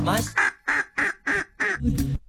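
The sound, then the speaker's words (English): A run of duck quacks, loud and nasal, comes in quick, evenly spaced bursts with brief silences between them. A harsher burst opens the sequence, and a final one ends it. “How many quacks was that? That was five quacks. I think that might be a first, five quacks.”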